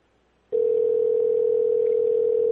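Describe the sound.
A telephone dial tone sounds as a call to the Thailand police is placed. After a brief silence, one steady, unbroken mid-pitched tone holds for about two seconds, then cuts off.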